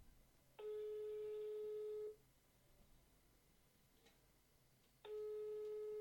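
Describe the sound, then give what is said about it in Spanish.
An outgoing telephone call rings with two long, steady, buzzing tones separated by a few seconds of quiet, the second one continuing to the end, all faint. “Lo voy a llamar por teléfono.”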